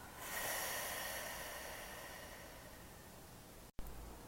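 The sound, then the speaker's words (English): A deep guided breath in and out: one long, airy, steady rush of breath that fades slowly, with no talking, ending in a brief cut. “let's take one last breath here together. Deep breath in. And exhale it out, let it go.”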